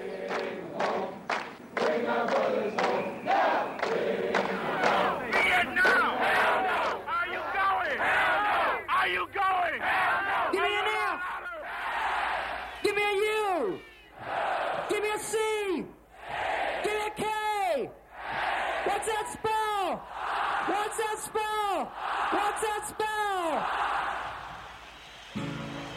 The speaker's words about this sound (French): il ne fait plus scander Fish, mais Fuck. F-U-C-K, qui est le fameux fuck qu'on entend scander à Woodstock.